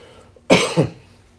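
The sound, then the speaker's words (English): A single loud cough straight into a microphone, a short harsh burst with a quick second pulse, heard alone against quiet background. “I tried to cough away from the mic, I coughed right into it.”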